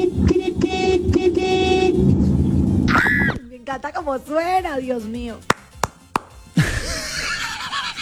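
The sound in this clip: A car horn honks in a few loud, steady blasts at the start, then people talk with scattered short knocks.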